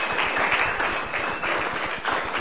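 An audience at a poetry reading applauds a poet who has just performed. The clapping is a steady, dense wash of many hands at an even volume for the whole couple of seconds.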